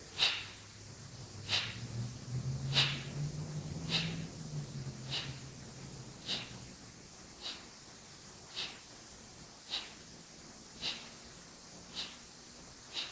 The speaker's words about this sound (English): The Kapalbhati is to be, while exhaling, we need to contract the stomach. So it's like this.